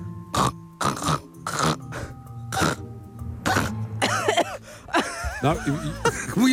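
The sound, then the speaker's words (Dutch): A voice imitates a filthy, phlegmy smoker's cough: five harsh, loud cough bursts spaced about a second apart, then a run of rough, voiced throat-clearing and groaning noises. “een hele vieze, smerige rokershoest”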